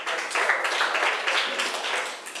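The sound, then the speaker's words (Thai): Students in a classroom clap for a classmate, making a soft, continuous patter of hands that stays faint and even throughout. “นักเรียนเก่งมากปรบมือให้เพื่อนหน่อย”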